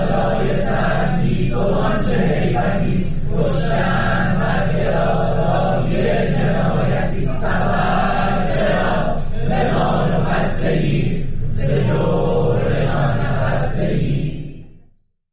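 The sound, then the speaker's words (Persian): Engineering students of Sharif University at a sit-in sing a protest song together: a crowd of voices in unison, in steady rhythmic phrases at a loud, even level that fades out at the end. “دانشجویان دانشکده های مهندسی شیمی و نفت و کامپیوتر دانشگاه شریف هم دست به تحصن زد و دست جمعی سرود زن رو خوندن با هم که میشنمیم قسمتیش رو”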